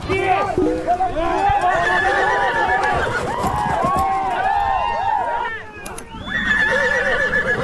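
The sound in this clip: Horses neigh loudly at a horseback-riding outing, with repeated shrill whinnies at the start and again near the end. Hooves clop underneath, and people chatter in the background.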